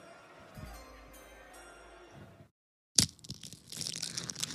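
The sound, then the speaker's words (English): A fortune cookie is opened and cracked: after a soft stretch and a moment of silence, a sharp snap is followed by crisp crinkling and crackling. “All right, open your fortune cookie, bro.”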